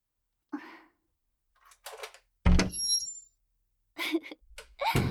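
A door is opened from inside: one solid thunk, with a brief latch click and rattle. Faint rustling and small handling noises come before and after it in an otherwise quiet space.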